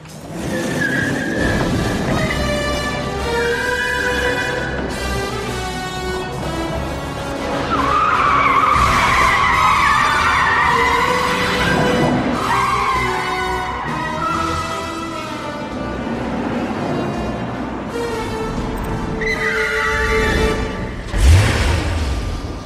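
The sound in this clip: Tires squeal and skid as a car is driven hard, with engine roar beneath; the screeching tones waver and shift continuously throughout, swelling in the middle and ending with a sharp thump near the close.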